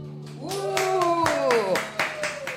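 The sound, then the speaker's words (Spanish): People outside a studio clap in rhythm, landing sharp, evenly spaced beats about four per second. A prominent voice carries above the claps. “Mira cómo se aplauden desde fuera.”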